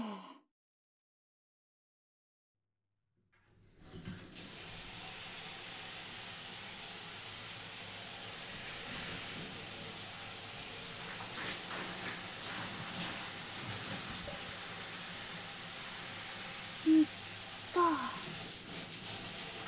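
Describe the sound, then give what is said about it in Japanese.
Warm water wets hair before shampooing, a soft steady hiss of running water that begins after a few seconds of silence and continues faintly to the end, with a couple of brief faint sounds near the close. “まずはシャンプーからやっていきます。髪の毛全体を濡らして、”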